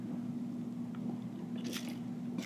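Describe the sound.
Biting and chewing of crispy food, with a few faint, crisp crunches rising over a steady low hum and no talking.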